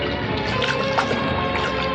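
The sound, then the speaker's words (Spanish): Steady murmur of the open sea under the midday sun beside a small crashed jet: a continuous, even wash of water noise with no distinct waves breaking, heard alone without voices. “Silencio impresionante, tan solo interrumpido por el murmullo del mar”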